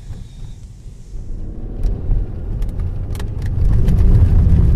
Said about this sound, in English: So now we're sitting in our taxi drive to the airport